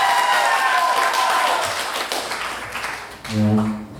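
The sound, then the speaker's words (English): Chair scooting back across the floor: a short, loud, low groaning scrape near the end, after a stretch of clapping and applause. “that was the sound of his chair scooting back”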